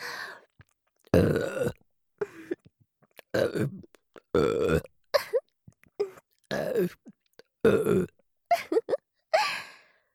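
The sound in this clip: A woman burps repeatedly: many short, rough belches separated by brief silences, some longer and louder than others.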